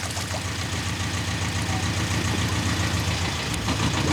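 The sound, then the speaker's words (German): A motor engine runs steadily, a continuous low throbbing idle with an even rumble that holds at the same level throughout and no voices. “Sie haben einen Motor. Ich weiß nicht, was ein Motor ist.”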